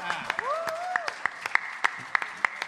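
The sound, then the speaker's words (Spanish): Applause from an audience after a recital, heard as sharp claps in a fairly steady rhythm across the whole clip, alongside a sustained high tone. “fuerte el aplauso.”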